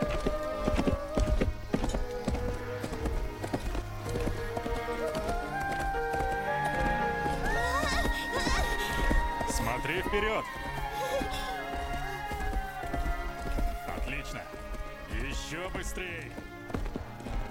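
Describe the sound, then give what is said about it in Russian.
Galloping hooves of a horse carrying riders past trees across a field, a steady, loud clip-clop running throughout over a dense tonal background. “Лошадь скачет мимо деревьев.”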